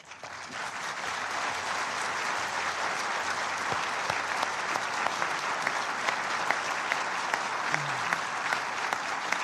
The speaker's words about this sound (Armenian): Այդ ծափահարության ցայնն է, երբ Միացյալ Աշխարհի ապահովության խորհրդի 14 անդամները կողմ կվերգեցին բանաձևին